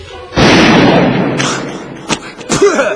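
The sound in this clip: A gunshot sound effect: one loud, booming blast with a long, rough decaying tail, followed near the end by a couple of softer, shorter knocks.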